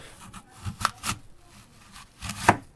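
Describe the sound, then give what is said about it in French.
A knife dices apples into cubes on a board for a crumble: sparse, irregular chopping knocks, a few sharper than the rest, with no talk. “on a déjà découpé les pommes, et mon commis va vite venir les découper en cubes.”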